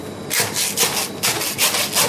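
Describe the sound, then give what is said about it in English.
A saw cuts through a fish head just behind the eye. The harsh, rasping strokes come in a steady back-and-forth rhythm, about five of them, loud and with no voices over them. “the two hands here to hold the fish, and the saw is going in. There's a good cut there, the back of the head behind the eye, and a bit more sawing.”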